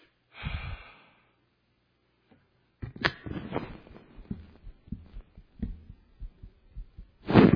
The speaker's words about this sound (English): hear my heartbeat?